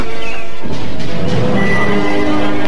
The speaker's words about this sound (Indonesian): Kuda itu mengais-ngais kakinya dan sesekali meringkik keras dengan sikap yang kelihatan marah.